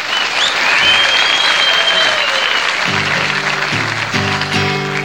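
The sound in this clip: Audience applause welcoming Johnny Bond at the Grand Ole Opry: loud, dense clapping that carries through the whole stretch, with music chords entering and sounding over the clapping toward the end.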